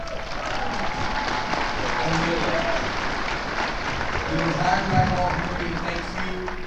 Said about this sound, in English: Please, round of applause. Please, round of applause.